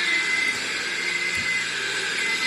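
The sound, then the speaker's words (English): A blue cherry picker carrying five people drives along Oliver Plunkett Street in Cork, giving a steady droning hum with a high hiss and a faint sustained tone throughout. “What does that sound like to you? It sounds like a vehicle in reverse. It sounds like maybe a rubbish bin or something like that. Okay, so there's five lads on top of a blue cherry picker, and they've robbed it on Oliver Plunkett Street.”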